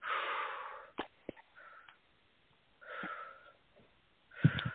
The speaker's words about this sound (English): Take 3 deep breaths, please. Real big.